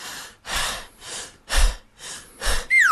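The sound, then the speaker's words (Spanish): A man breathes heavily through his mouth in several loud, rhythmic, airy breaths with short gaps between them. A descending whistle-like tone slides down near the end. “Así no se respira. Se debe inhalar por la nariz y no por la boca.”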